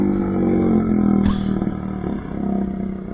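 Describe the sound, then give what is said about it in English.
A moped going by and gradually slowing down, a steady low buzzing engine drone that is loud throughout, with one brief sharp click partway through. “Is there a fucking moped going by? What is that? Just a gradual slowdown, so it sounds like a moped.”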